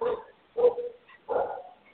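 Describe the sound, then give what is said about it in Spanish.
A dog barks three times, loud and fairly low-pitched, with short pauses between the barks and no other sound. “Está bien, el perro está discutiendo mejor”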